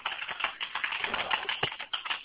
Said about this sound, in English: she's typing